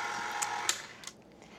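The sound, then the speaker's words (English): An electric mixer whirs steadily while mixing chocolate cake batter, with hot melted chocolate drizzled into the dry ingredients. The even mechanical hum carries faint clicks and cuts off about a second in, leaving near quiet. “And then with the mixer on, I'm gonna drizzle in the chocolate mixture. It's really still hot, so I'm just mixing it into the dry ingredients a little bit just to cool it down.”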